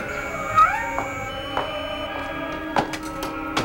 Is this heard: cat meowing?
yes

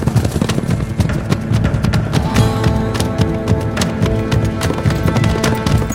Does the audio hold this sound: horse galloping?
yes

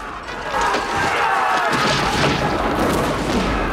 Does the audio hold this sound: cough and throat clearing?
no

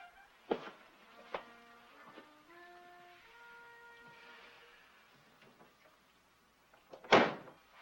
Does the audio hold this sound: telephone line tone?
no

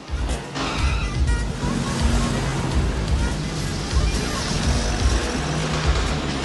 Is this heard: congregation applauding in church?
no

